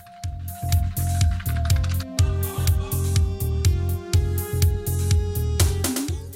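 Live pop music from a concert: a steady, pulsing electronic beat with sustained synth tones and bright melodic lines, moderately loud and continuous.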